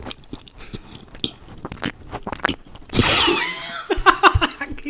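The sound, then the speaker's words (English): Chewing and biting on Sargento cheese for ASMR: a run of small, moist mouth clicks and smacks, then a louder stretch of crunchy noise, followed by a few more sharp chewing sounds. “That cheese is cheesing. I love Sargento. Let me do an ASMR with this cheese.”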